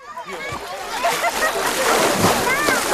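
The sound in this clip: Water splashing and sloshing at a summer swimming spot, a continuous churn of splashes with shouting voices mixed in.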